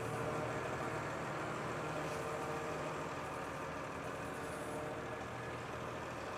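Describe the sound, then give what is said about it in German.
Low, steady engine drone from a large vehicle reversing, heavy and constant in loudness throughout, with no voices and no distinct events. “Beim Rückwärtsfahren hat man immer das Problem, dass man so ein Fahrzeug leicht nach unten drückt.”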